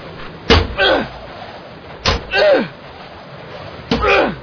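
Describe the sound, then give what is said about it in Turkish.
An iron crowbar bangs on a door in three loud, heavy blows at fairly even intervals, each a sharp impact followed by a brief rattling tail. “İşte kol demirini buldum. Vur bakalım kapıya.”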